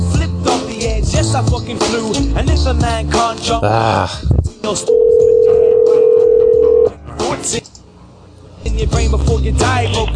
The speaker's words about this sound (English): She's making me call a phone number instead of her Skype.